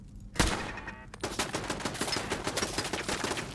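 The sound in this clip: Gunfire from a tactical rifle shooting 5.56 rounds in a video game: one sharp shot, then a fast string of many rapid cracks.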